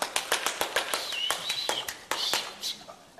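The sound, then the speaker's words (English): Hand clapping from spectators at the finals of a 1950 ballroom dancing championship: sparse, sharp individual claps in an uneven rhythm, with a brief high whistle-like tone cutting through midway. “people clap their hands and make a lot of noise”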